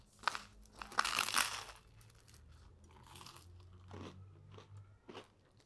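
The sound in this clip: Crunchy bites into grilled French bread topped with grated parmesan, olive oil and oregano, toasted on a barbecue grill: a few sharp, brittle crunches early on, then softer, quieter chewing and crackling.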